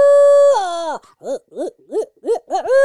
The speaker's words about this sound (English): She hears turkey calls. She hears owl hooting.